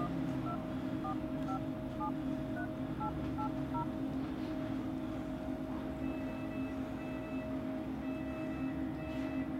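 Keypad tones dial a number on a borrowed mobile phone in a hospital, a quick run of short beeps followed by repeated ringing tones that go unanswered, all over a steady low hum.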